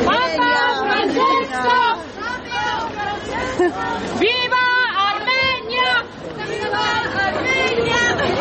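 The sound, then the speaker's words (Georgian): Joyful shouts from Armenian pilgrims leaving a papal Mass in Georgia: many overlapping voices calling out and chattering at once in a loud, lively crowd, with the sound rising and dipping throughout. “ის და მისი მეგობრები წირვიდან მხიარული შეძახილებით გამოვიდნენ.”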